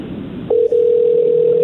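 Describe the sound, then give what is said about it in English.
A telephone line tone sounds as a call comes through: a loud, steady, even-pitched tone starts after a half-second of low hum and continues with one brief dropout. “Oh, he's calling. Wow, a twist. They're calling us.”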